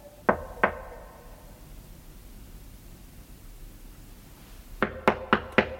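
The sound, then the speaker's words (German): Knocks on a door: two sharp raps, a long quiet pause, then a quicker run of several more knocks. The knocks are alone, with no voices. “Er klemmte. Also klopfte ich.”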